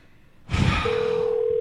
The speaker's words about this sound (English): That's the phone. That's the phone. I know. It's across the room.